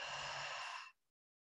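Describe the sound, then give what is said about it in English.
A single breathy exhale through the mouth, part of circular connected breathing, steady and soft for nearly a second before it cuts off. “This is a sample of circular connected breath.”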